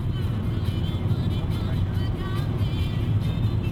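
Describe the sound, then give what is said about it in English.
Steady drone of a car driving on the Autobahn south from Berlin: a constant, loud low rumble of engine and road noise with no breaks throughout. “Driving on the Autobahn south from Berlin, I head to a town called Schwarze Pumpe, German for Black Pump.”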